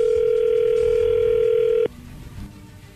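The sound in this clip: A telephone line tone as a call is placed: a single steady, unbroken tone holds for about two seconds, then cuts off abruptly, leaving only faint background noise.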